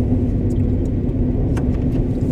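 Car being driven on a road, giving a steady, even rumble of engine and tyres with a constant low hum throughout. There are no voices.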